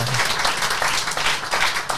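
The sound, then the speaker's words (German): Applause from an audience at a show, a dense, even patter of clapping that holds at steady loudness from start to end. “gibt nichts Beschisseneres als in so einer Show, einer nur immer so einer nur klatscht. So ein Jubelperser, das ist immer.”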